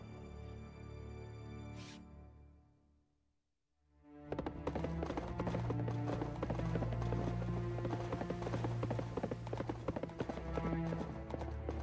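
Horse hooves clip-clop as a man rides on horseback in a dubbed cartoon. After a brief quiet lull, a rapid, dense clatter of hoofbeats starts and carries on steadily to the end.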